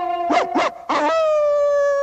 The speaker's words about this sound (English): The artist yanks Prissy inside by the collar, stopping her in mid-howl.